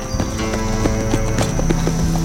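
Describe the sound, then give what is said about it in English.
Hooves of a ridden gelding clip-clop in a steady, even rhythm. The many hoof strikes are fairly loud and keep a regular pace throughout. “With a horse under him again, Smoke felt much better. Even if it was a knot-headed gelding, it would make do. At once, Smoke Jensen set off in search of Tommy Olsen.”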